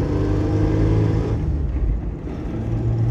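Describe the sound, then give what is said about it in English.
A car engine revving in second gear with an odd, off sound, giving a continuous low rumbling drone that dips slightly midway, then swells again. “Now even second gear sounds kind of weird too.”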